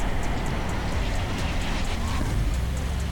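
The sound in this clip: Trucks moving: a loud, continuous rumbling roar of heavy vehicle engines that stays steady throughout with no clear breaks.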